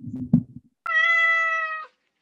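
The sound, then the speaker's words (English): A cat gives one drawn-out meow, loud and clear with a steady pitch, lasting about a second. Brief low rumbling noises come just before it. “It's always the cat. It's always the cat. I swear.”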